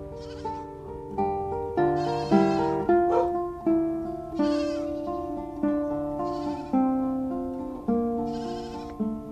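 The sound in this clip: Many overlapping bleats from a herded flock of livestock in a remote mountain village in the Serra de São Macário, wavering tonal calls in varied pitches repeating loudly in a continuous chorus, with no talk.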